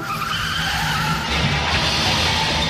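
Car tyres skid in a continuous, loud, rough hiss that runs through the whole clip and grows harsher partway through, with no voices.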